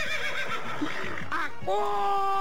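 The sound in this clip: A horse neighs, a loud, shrill whinny with wavering, shaking pitch, followed by a sustained higher call.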